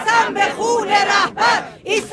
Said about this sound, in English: And that is the sound of women chanting, "I swear by the blood of the Supreme Leader, we will stand firm until the end. Death to America."